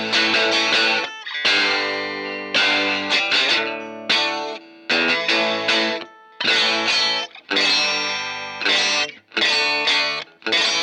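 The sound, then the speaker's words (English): Overdriven electric guitar chords from an Ibanez 2640 Artist doubleneck, both pickups run through a phaser with light overdrive from 1981 effects, ring out in a long series of loud strummed bursts with brief gaps, swirling and sustained, with no talking. “Let's put a little just overdrive. 1981 effects. Phase them both. Let's hear that.”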